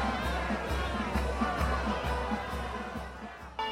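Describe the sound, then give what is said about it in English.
Wedding bells ring in a regular, evenly spaced peal, each strike sounding a bright tone over a sustained, humming wash of resonance. “Well, that's the sound of wedding bells.”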